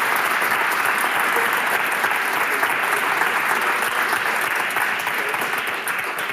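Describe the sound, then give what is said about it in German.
Welcome applause from a full-house audience at a live evening event greeting a Moscow correspondent: dense, steady clapping from many hands that holds evenly and eases slightly at the end. “Ich bitte um einen äh, Willkommensapplaus für Paul und wir schwenken mal rüber.”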